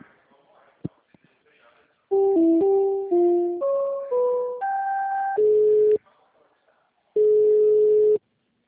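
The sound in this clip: Electronic telephone tones play while a call is being transferred: a quick run of stepped beeps at shifting pitches, then a pause and one longer steady tone, with faint low noise before the tones begin.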